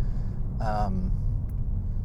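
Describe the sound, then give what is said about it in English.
A gray car's loud, nasty aftermarket exhaust rumbles steadily, a deep, constant low drone at moderate level, with a voice briefly heard over it. “And then, of course, as you can probably tell, it has some really nasty exhaust on it.”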